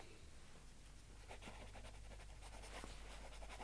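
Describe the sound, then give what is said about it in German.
A pen scratches across paper as a name is written: faint, quick strokes in a few short bursts over a low, steady hum. “Dann schreiben Sie Ihren Namen.”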